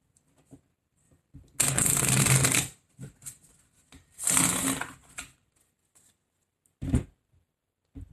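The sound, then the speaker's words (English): A deck of tarot cards is shuffled in two long, rushing riffle bursts, with scattered short taps and flicks of the cards between and after them, fairly quiet and with no voices. “Are there any messages for Virgo? May I have a card or two, please, if there's any messages for Virgo?”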